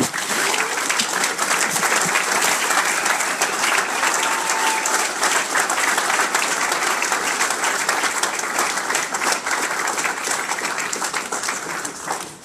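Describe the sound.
An audience applauds to welcome a distinguished speaker to the stage: thick, continuous clapping that stays loud and even throughout, then drops away sharply at the very end.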